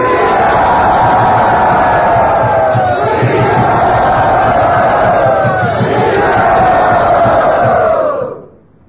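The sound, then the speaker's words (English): Temple crowd at Sridhata Gopinath Mandir cheering to welcome Maharaj: many voices shout and cheer together in a loud, sustained roar with tonal, chant-like swells, then fade away quickly at the end. “for his kindness to come today and bless us here at Sridhata Gopinath Mandir. Everyone, please very lovingly welcome Maharaj.”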